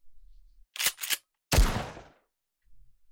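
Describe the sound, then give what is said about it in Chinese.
Gunshots fired outdoors in the wild: two short, sharp cracks in quick succession, then a heavier blast with a longer decaying tail, all set against near silence. “你干什么啊？怎么又开枪啊？”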